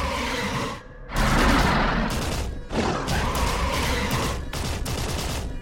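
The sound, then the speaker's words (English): Gunfire sound effect with bullets flying as chaos breaks out and security personnel descend from above: a loud, dense, continuous barrage of shots and crashes, broken by a few brief lulls. “this place suddenly turns into chaos as bullets start flying and everything else.”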